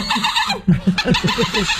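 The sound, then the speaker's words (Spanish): A human voice imitates a Citroën car engine failing to start, with a dirty spark plug and trouble at the choke: a rapid run of throaty, clucking sputters that pulse rhythmically without catching. “Un Citroën que no arranca. En el cebador. Problema de bujía.”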